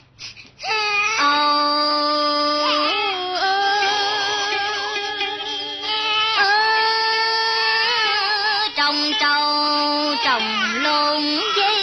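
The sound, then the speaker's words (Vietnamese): A baby cries hard in long, high-pitched wailing bursts that rise and fall, with brief catches of breath between cries. “Khóc dữ vậy không biết nữa. Nín đi cháu.”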